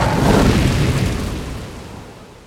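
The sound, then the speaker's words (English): A dragon blows a pillar of fire: a single loud, roaring burst of flame hits at the start, then its deep rush slowly dies away over about two seconds. “The dragon circled its way to the top of the tallest tower, landed on the spire, and blew a pillar of fire hundreds of feet into the sky.”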